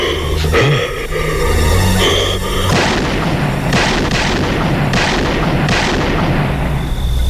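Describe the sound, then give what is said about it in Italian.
Gunshots fired in a film scene: several loud, booming shots within a dense, continuous soundtrack that stays loud throughout, with no voices. “Fortunatamente per lei, Loomis arriva in tempo e spara 6 colpi a Michael, che cade dal balcone e rimane a terra, apparentemente morto.”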